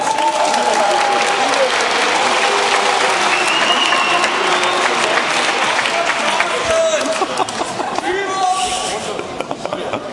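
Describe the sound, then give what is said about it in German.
Audience applause at a German quiz show: dense, sustained clapping from a crowd, with a voice over it, thinning out toward the end. “Klatschen. Klatschen.”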